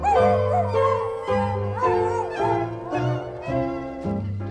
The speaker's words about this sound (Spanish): Al perrito le duele una muela.